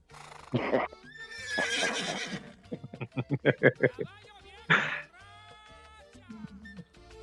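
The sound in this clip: A mare neighs in a long whinny that breaks into a rapid run of quavering pulses, loud and shrill, with other brief sounds around it.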